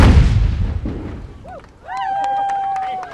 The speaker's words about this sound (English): Every ship with guns fires them along the way, and ours are by far the biggest and baddest. Stand by fire! Stand by fire! Fire! Fire!